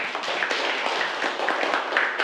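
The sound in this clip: Students applaud a classmate group during a classroom lesson on crafting dolls and keychains from scrap fabric. The clapping is dense and steady, with many overlapping hand claps holding an even level for about two seconds.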